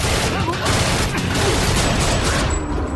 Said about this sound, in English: We scramble for cover as Wax kills another chef, then spins and guns down another waiter.